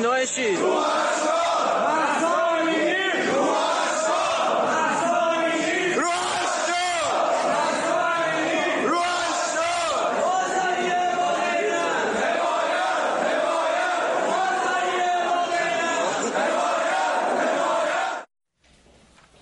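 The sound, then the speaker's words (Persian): Tehran bazaar merchants chant protest slogans as a massed crowd, loud and sustained shouting in rhythmic unison for about eighteen seconds before it cuts off abruptly. “نشون میده چطور بازاریان در تهران، البته چند شهر دیگه، با فریاد مهسا جان روحت شاد، بازاری با غیرت، حمایت حمایت، دست از کسب و کار هم کشیدن.”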